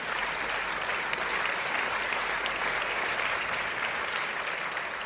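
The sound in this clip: Audience applause welcoming a guest onto a show, a dense, even wash of clapping that stays loud and steady from start to finish.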